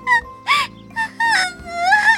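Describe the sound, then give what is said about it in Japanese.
Exaggerated, high-pitched wailing sobs come in about four tonal bursts, the last one drawn out and wavering, with no words spoken. “いやあ、オーメイが意地悪するから泣いちゃったじゃない。”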